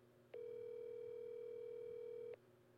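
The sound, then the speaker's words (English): A single ringback tone of an outgoing phone call holds one steady pitch for about two seconds and then stops, faint and alone. “All right, so we're calling Lawrence Moten right now.”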